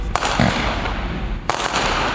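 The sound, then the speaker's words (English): Fireworks set off by protesters blocking traffic at a street intersection in Milwaukee: two sharp, loud bangs stand out over continuous crackling and rumbling noise. “About 10 days ago, Black Lives Matter protesters set off these and many other fireworks while blocking traffic at 35th and Fond du Lac in Milwaukee.”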